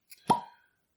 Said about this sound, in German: Dann auch ein trauriges, eher trauriges Ploppen.